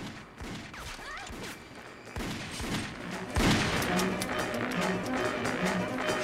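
Pistol gunfire in a chase scene: a few sharp, loud cracks ring out amid busy scuffling and clattering action noise, the strongest shot landing past the midpoint.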